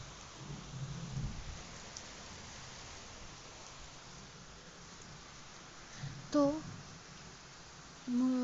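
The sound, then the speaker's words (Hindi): Heavy rain with thunder: a steady hiss of rainfall runs throughout, with a low rolling rumble early on. “तभी बहुत ज़ोरों की बारिश शुरू हो गई. इस तरह और बहुत ज़ोरों की बिजली कड़कने लगी.”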